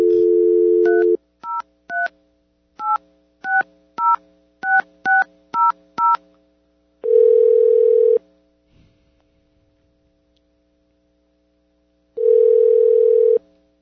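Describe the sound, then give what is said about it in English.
A phone call is placed: a steady tone sounds, then a quick run of keypad dialing beeps, followed by two long ringing tones separated by a silent gap, with no voices. “So let's do a call. Let's try to talk to the secretary.”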